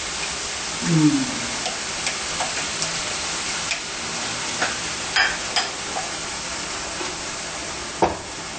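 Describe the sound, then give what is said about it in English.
Food being stirred in a pan after a splash of soy sauce or Maggi seasoning, with coconut milk in the mix. A soft, continuous sizzling hiss is broken by a few faint clinks and scrapes of the utensil. “With a bit of soy sauce. Or maggi. Like that. And we mix it in here.”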